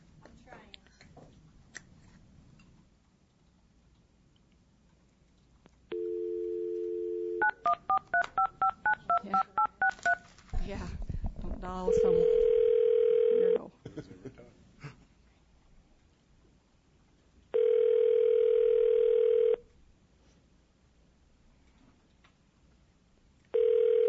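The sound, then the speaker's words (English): Telephone being dialed, then ringing: a steady dial tone gives way to a rapid run of keypad beeps. Long, even ringback tones follow, with two full rings and the start of a third, separated by quiet gaps. “Do you have any questions before we place the call? Okay. You're dialing him”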